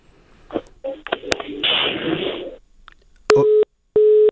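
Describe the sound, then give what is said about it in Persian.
A telephone busy tone sounds after a call to a reporter at the presidential palace drops. Two loud, steady mid-pitched beeps follow a stretch of crackling, garbled line noise. “تماس ما متاسفانه با امید زهیرمل خبرنگار ما در ارگ ریاست جمهوری قطع شد”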